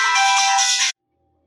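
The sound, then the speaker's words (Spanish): A phone ringtone signals an incoming late-night call: one bright, steady electronic melody that sounds loud for just under a second, then cuts off abruptly into silence. “Me llamó mi hermano a esta hora, o sea, aló.”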